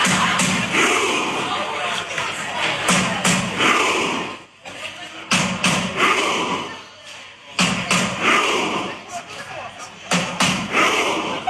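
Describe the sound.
Norwegian football fans at a World Cup match shout and cheer in a dense, loud roar, with thumps and yells and a couple of brief lulls.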